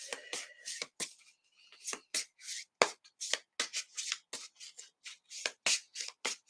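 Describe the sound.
Tarot cards shuffled during a card reading: many quick, papery riffling bursts in an uneven rhythm, with brief pauses between flurries. No talk is heard over the shuffling.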